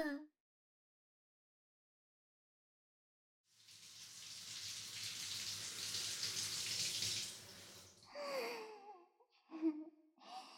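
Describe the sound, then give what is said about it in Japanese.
Shower water running in a steady, dense hiss that lasts several seconds, then stops and gives way to a few breathy vocal sighs. “あー、さっぱりした。やっぱシャワー浴びると違うね。”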